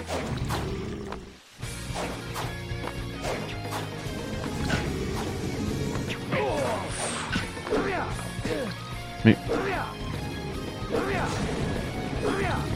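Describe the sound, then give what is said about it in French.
A wall is smashed in a video game amid repeated crashing and thwacking game effects, one sharp impact standing out, with a voice talking over the action throughout. “j'ai cassé le mur.”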